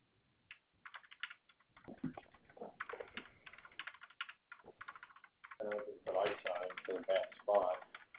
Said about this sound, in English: I'm sorry, I'm just getting this typed up.